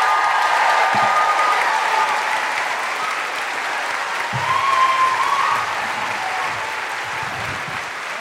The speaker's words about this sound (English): Put your hands together and make incredible Christchurch welcoming guilty feminist woohooing noises for Fiona Given and Hannah Hudson.